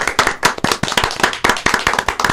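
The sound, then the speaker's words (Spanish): Studio applause celebrating a 200th program, many dense, loud, rapid hand claps overlapping in a continuous burst from start to end. “Feliz cumpleaños, andar bien. Un aplauso. Bravo.”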